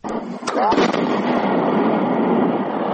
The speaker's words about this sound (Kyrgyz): Бул жарылуу кайсыл бир аскердик машыгуудагы үндөр эмес. Кадамжай район аймагындагы Миңчинар айылында ФАБ 100 үлгүсүндөгү 20 авиабомба табылып, адистер зыянсыздандырып жаткан учурунан.